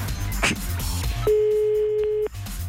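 Telephone ringback tone on an outgoing call: one steady, mid-pitched tone lasting about a second, with low rustling noise before it and after.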